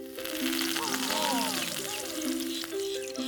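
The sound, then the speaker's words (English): Banana peels deep frying in hot oil give off a steady hiss and sizzle, heard beneath a tonal melodic background throughout. “I'm going to deep fry these banana peels in hot oil.”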